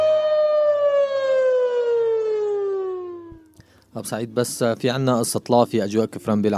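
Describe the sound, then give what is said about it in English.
An air raid siren used as an airstrike warning wails loudly, its tone sliding steadily lower before it fades out. A voice then begins talking. “With an air raid siren.”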